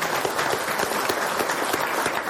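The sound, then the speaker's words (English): Audience applause at an Angus cattle business gathering, a dense, even wash of many hands clapping at once, steady and sustained throughout without pause. “So give yourself a round of applause for a great year.”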